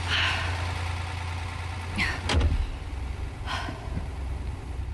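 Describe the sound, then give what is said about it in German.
A car engine idles with a low, steady hum as someone gets in. A brief thump near the middle sounds like a door shutting, with a few faint rustles around it. “zu Walter, welcher sie im Auto mit laufendem Motor erwartet.”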